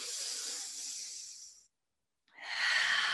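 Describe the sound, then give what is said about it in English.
Deep, slow breathing during a guided breathing exercise: one long, airy breath that fades out over about a second and a half, a short silence, then another strong, hissy breath begins. “Huge breath in, huge breath out. Three more.”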